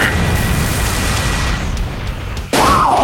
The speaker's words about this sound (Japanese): ルナキャノン、発射